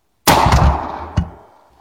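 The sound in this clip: A shotgun fires a shell in one loud, sharp blast with a long decaying tail. A second, softer sharp crack follows about a second later, with no talk.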